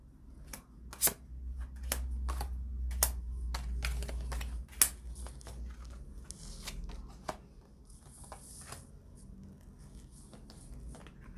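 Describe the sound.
Tarot cards being handled and laid out for a reading, heard as many crisp, quiet snaps, flicks and taps at irregular intervals with soft rustling between them.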